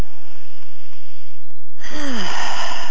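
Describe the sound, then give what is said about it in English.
A deep breath is drawn in, a loud, airy rush that begins abruptly after near quiet. A brief, falling, whistle-like wheeze rides on top of the breath. “So just like take a breath. So I'll take a breath right now.”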